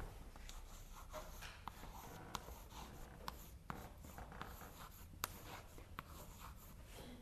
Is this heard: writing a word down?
yes